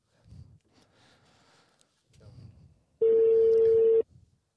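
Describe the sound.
A phone rings on an outgoing survey call: one steady, buzzy ringing tone about a second long at a fixed pitch, loud against faint, low murmuring sounds before it.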